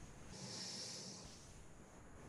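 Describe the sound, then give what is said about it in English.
A soft breath out during a breathing exercise: one faint, airy hiss that swells and fades within about a second, alone against a quiet background. “We breathe in and breathe out and gather the chi in.”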